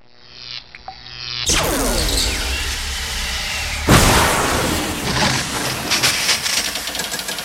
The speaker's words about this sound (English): I'll use my laser blasting eyes to cut through the steel of the octopoid's lair.